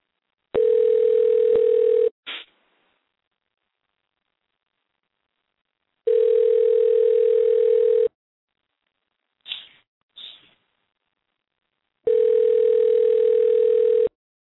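Telephone ringback tone while a call waits to be answered: three steady, even tones of about two seconds each, separated by silent gaps of roughly four seconds, with a few faint clicks in between and no voices.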